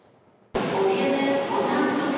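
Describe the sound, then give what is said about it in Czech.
Ambient hubbub of the main railway station hall in Prague, with people waiting for their trains: a steady wash of crowd noise and murmuring voices that starts abruptly and continues evenly. “Hala pražského hlavního nádraží dnes popolední. Lidé čekají na svůj vlak.”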